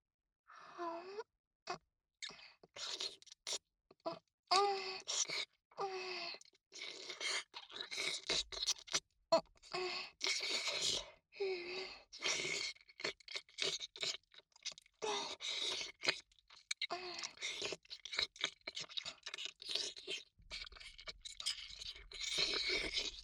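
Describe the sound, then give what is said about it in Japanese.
Wet licking and slurping sounds come in many short, irregular bursts separated by brief silences, with soft breathy sighs and low vocal murmurs between them, all fairly faint. “では、舐めさせていただきますね。”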